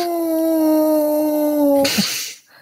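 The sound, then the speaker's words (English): A person imitates a wolf howl with a voice: one sustained, slightly falling howl that ends in a breathy burst and fades out. “That's not what I wanted. Hey, did you hear that lame human wolf call?”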